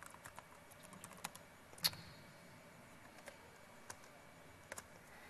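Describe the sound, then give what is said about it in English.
Faint typing on a computer keyboard while entering a PowerShell command: sparse, irregular keystrokes with one noticeably louder tap among the soft clicks. “If I can type.”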